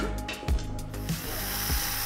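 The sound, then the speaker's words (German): A power drill runs in a barn on a farm, drilling near a wooden table: a steady, high whirring whine that holds for the whole stretch, with a few brief louder surges. “Pass auf, dass wir nicht einen Tisch bohren, dann kriegen wir Ärger.”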